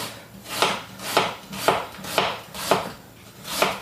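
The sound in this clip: A knife chops onions for Königsberger Klopse in a steady rhythm of soft, crunchy strokes about twice a second, with no talk.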